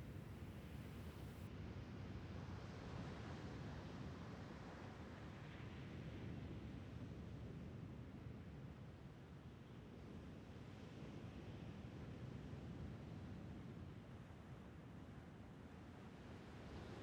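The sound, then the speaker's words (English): Ocean waves wash into a bay at rising tide, a soft, continuous, faint surf hiss that stays steady and unbroken throughout, with no voices. “The rising tide fills the bay to its brim. Moonlight dances upon the rippling surface,”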